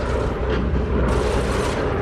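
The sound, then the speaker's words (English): Flak bursts around bombers as a radio drama battle effect, a loud, dense and continuous rumble of booming explosions without clear gaps. “The bombers are strafed by flak.”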